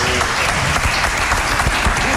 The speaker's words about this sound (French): alors qu'il est congratulé, ovationné, et on peut encore l'applaudir pendant qu'il s'assoit.